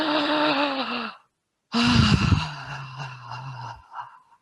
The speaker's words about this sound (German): einfach ganz konkret einatmen, ausatmen und zwar so, dass du dich hörst mal.